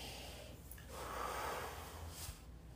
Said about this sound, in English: Take a deep breath.